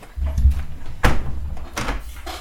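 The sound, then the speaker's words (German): A window being closed: a low rumbling slide, then a sharp thud as it shuts and a second softer knock. “Ich glaube, ich mache mein Fenster jetzt mal zu.”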